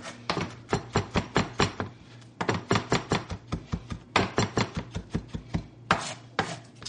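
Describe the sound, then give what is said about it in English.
Knife finely chopping garlic cloves on a board: many rapid, crisp taps in quick rhythmic bursts, broken by a few short pauses. “I'm going to take about 3 or 4 cloves of garlic and finely chop them.”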